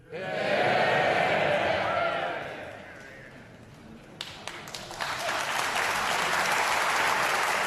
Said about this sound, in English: The Right Reverend Rachel Trewick, Bishop of Gloucester, was cheered by the House as she took her seat.